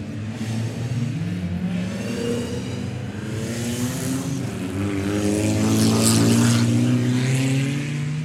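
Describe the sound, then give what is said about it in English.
A full grid of Ford Cortina race cars at Goodwood's 2023 Members Meeting leave the assembly area for the circuit, some sliding sideways. Many engines rev and snarl together, the roar building louder toward the end, with no voices. “I'll let you enjoy now the sounds of that full grid of Ford Cortinas heading out onto the circuit. some of them getting a little bit sideways out of the assembly area and onto the circuit.”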